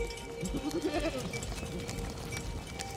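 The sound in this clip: Sheep from a flock bleat on the heath on a mid-March morning. A wavering, quavering bleat sounds in the first second, followed by quieter, scattered bleating and background rustle.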